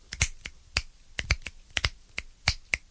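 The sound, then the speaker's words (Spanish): Finger snapping in a demonstration of sounds made with the hands, many crisp, sharp snaps in an irregular rhythm, some in quick pairs, each one clean and separate against near silence. “Otro tronando los dedos. O chasqueándolos,”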